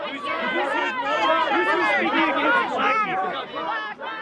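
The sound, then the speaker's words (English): Protesters chant and shout outside a Ben Shapiro talk at the University of Utah, many overlapping raised voices forming a dense, continuous roar that stays loud throughout. “hearing is a crowd protesting the appearance of conservative Ben Shapiro at the University of Utah. Inside the hall, there's a supportive crowd listening to Shapiro speak. Outside the hall, protesters are chanting in opposition and shouting down counter-protesters.”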